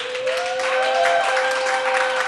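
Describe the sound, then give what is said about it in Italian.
A small group applauds on request. The clapping is dense and steady for the whole clip, with a sustained tonal sound running over it. “E fingiamo di avere del pubblico. Fate un applauso.”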